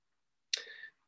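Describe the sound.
A single click advancing a presentation slide, with a sharp onset trailing into a brief bright hiss, heard alone without talk.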